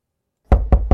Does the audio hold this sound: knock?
yes